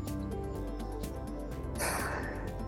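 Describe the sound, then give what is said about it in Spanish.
A deep breath drawn in, a soft airy rush in the final second over a steady tonal background hum. “Bien, voy a respirar”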